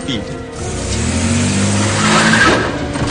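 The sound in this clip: A car engine revs hard as the vehicle is driven away, its steady roar climbing in pitch and staying loud to the end.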